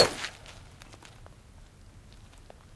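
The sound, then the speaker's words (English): A golf driver strikes a teed ball on a salt flat: one sharp, bright crack at the very start, then only a faint, low background hiss. “so you tee it up and hit the driver.”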